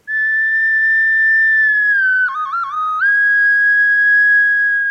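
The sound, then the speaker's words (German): Recorder (Blockflöte) playing a loud, pure, sustained high note that dips midway into a few quick, lower wavering notes, then returns to the steady held tone. “Die Blockflöte. Geliebt und auch manchmal ungeliebt, mit unverkennbarem Klang.”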